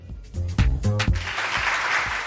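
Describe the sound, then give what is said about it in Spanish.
A short applause sound effect enters after a brief harmonic sound and becomes steady, dense clapping that carries to the end. “Y vamos con este aplauso al semáforo en verde”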